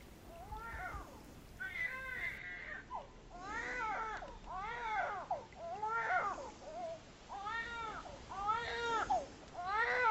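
A baby cries in a man's arms beside a cabin and cannot be calmed, a long run of wavering, high-pitched wails in many repeated bursts at a moderate level.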